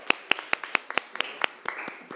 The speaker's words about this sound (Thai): ปรบมือให้ตัวแทนจากกลุ่มที่1นะคะ